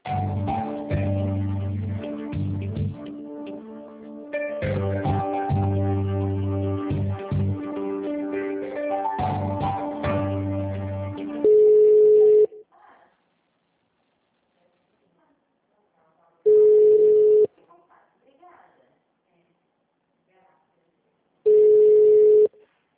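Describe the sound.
Telephone line tones during a call transfer to an HR department: a dense stretch of busy tonal sound gives way to three long, steady ringback tones, evenly spaced about five seconds apart with near-silence between them.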